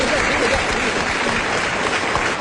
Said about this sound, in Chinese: 对，咱们男同胞给鼓鼓掌，给男同胞给鼓鼓掌。